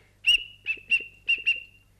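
A small whistle is played in five short, clear, high notes at a steady pitch, with the last two coming close together in a light, uneven rhythm.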